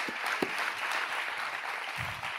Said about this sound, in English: go ahead and give the Lord another great round of applause